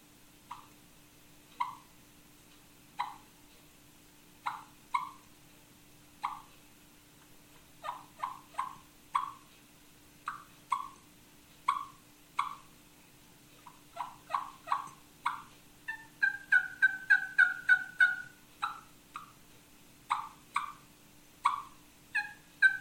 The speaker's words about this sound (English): One of the things that they'll do is they'll start off clucking early in the morning when they very first wake up, and it'll sound like this.